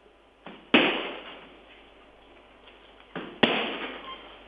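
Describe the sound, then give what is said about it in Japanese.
Two kicks land on a hard punching bag, spaced a few seconds apart. Each starts with a short swish and ends in a sharp, loud smack that rings briefly before fading. “あの硬い方のあのサンドバッグも蹴ってくださるということなんです。ちょっと音の違いを感じてみてください。”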